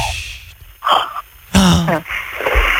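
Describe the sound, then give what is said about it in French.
Snoring from a sleeping woman: a few loud, rasping breaths with throaty, buzzing rattles, separated by short quieter pauses. “Oh quelle horreur, elle ronfle, oh, je peux pas. C'est dingue ça.”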